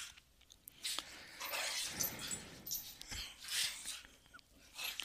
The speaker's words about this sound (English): But speaking of Gladiator, I have two 30-pound dogs growling at each other.